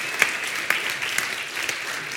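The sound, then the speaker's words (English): An audience applauds during a service, a steady wash of clapping with a few sharper individual claps standing out. “Let's applaud the day.”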